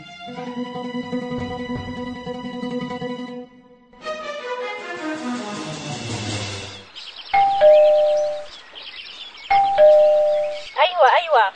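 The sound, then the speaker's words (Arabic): A doorbell rings twice, each press a bright two-tone chime, high then lower, sounding clearly after a stretch of music. “وبعد ما تخلص شغلك بتضغط على الجرس وبنت راف”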